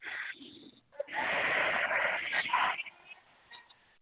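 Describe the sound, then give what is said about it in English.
A long, deep breath rushes loudly, its breathy hiss lasting almost two seconds. Fainter breathing comes before it and after it. “Take a nice deep breath.”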